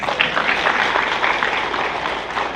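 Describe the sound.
Applause from an audience in a hall during a Buddhist dharma talk: dense, steady clapping that keeps an even loudness for the whole stretch.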